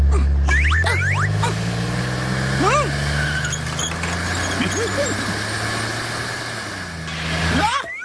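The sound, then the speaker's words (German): A race car's engine rumbles as a low, steady drone that slowly sinks in pitch, with brief squeaky voices chirping over it. “Huch, ein Rennauto.”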